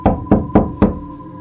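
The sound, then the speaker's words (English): Four firm knocks land on a front door in an even rhythm, each a solid thud with a short ringing tail. “Then there'd be a knock.”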